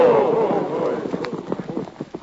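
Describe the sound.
Horses gallop away during a Western chase, their rapid clip-clop hoofbeats forming many quick, uneven pulses that grow sparser toward the end, with a voice heard over the opening moments.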